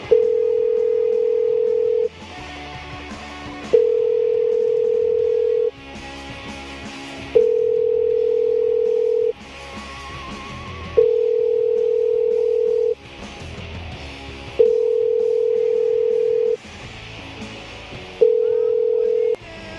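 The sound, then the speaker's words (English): Ringback tone of an outgoing telephone call waiting for pickup: six long, steady tones at the same pitch, each about two seconds long, with short gaps between them. “Someone needs to pick up their phone. Welcome to the show. We haven't made a call in a while.”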